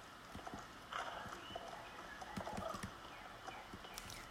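Hooves clip-clop faintly as a horse is ridden without leg boots. Soft, irregular hoof strikes are scattered over a quiet background.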